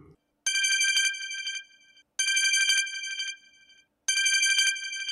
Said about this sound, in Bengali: এমন সময় হঠাৎ ফোন বেজে উঠল